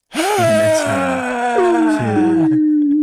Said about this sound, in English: Let's all take a collective deep breath and collect ourselves. We've had some weird energy in the studio, okay? Ready? Breathe in.